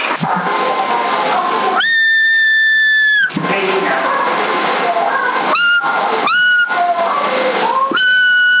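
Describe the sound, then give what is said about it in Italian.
Whistling over a CB radio on channel 10 in the 27 MHz band, with one long steady high tone followed by several shorter ones against radio hiss, and voices in between. “Chi è che fischia?”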